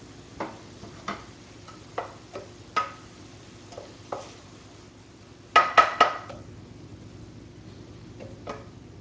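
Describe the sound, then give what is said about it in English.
Spoon stirring orzo in a pot, a run of soft, evenly spaced clicks against the pan, then a louder cluster of several quick clanks, with a low steady hum underneath and no talk. “The orzo, of course. Well, keep stirring that guy.”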